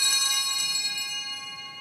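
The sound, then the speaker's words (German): Altar bells ring out at Mass as the priest raises the offerings, a bright metallic jingle rich in high sustained overtones that starts at full strength and slowly fades. “Als der Pfarrer die Gaben hochhält, läuten sie die Glocken.”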